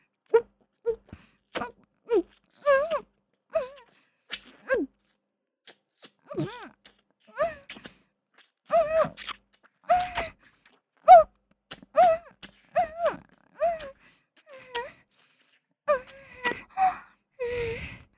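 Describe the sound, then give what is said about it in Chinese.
Rapid, heavy breathing mixed with many short voiced moans comes in quick, uneven bursts separated by brief gaps. It is fairly loud and has no words. “你的呼吸听上去好急促。”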